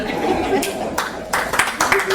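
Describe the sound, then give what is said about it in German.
Audience clapping breaks out in several short, scattered bursts, mixed in with a voice talking over it. “Oh, ihr klatscht schon, wenn ich nur was trinke?”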